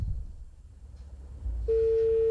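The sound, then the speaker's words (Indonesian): Telephone busy tone as a call-in line to a radio program cuts off: a single steady, pure tone starts abruptly after low background noise and holds unbroken to the end. “Ya, sayang sekali harus terputus ya di malam hari ini. Ya, bisa dicoba lagi di kotong punya line telepon Pro 4 RRI Kupang.”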